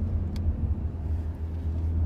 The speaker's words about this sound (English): Listen to this. This downshift to second. But that's all fake? All fake. It's just pumped in?